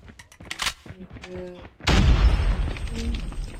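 An airstrike explosion in the Call of Duty Mobile video game: a few brief game sounds lead into a sudden heavy boom that settles into a sustained, rumbling roar of blasts.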